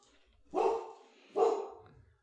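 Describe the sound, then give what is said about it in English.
A pet dog barks twice at home, two separate full-throated woofs about a second apart, each with a short trailing decay, standing out against an otherwise quiet background. “I don't know if you can hear that, but that's just our dog. It's fine.”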